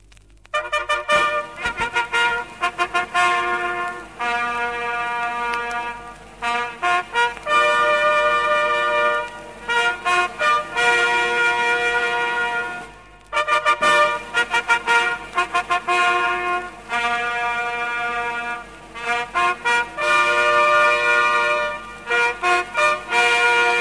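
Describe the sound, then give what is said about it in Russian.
A ceremonial 'Solemn Greeting' signal on a horn-like brass instrument, loud, bright sustained notes rich in overtones, played in phrases separated by short pauses. “Сигнал «Торжественное приветствие».”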